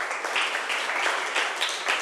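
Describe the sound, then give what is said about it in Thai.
Students in a classroom applaud a classmate with steady, dense clapping that stays even in loudness throughout, with no voices standing out. “ขอบคุณค่ะปรบมือให้เพื่อนหน่อยค่ะ”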